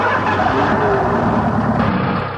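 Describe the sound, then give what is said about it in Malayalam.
A car engine drones loudly and steadily as the vehicle moves off while the clutch is eased out during a driving lesson, with the sound thinning slightly at the end. “ഇനി sir ക്ലച്ചിൽ നിന്ന് മെല്ലെ കാലുകൾ വിട്ടാ”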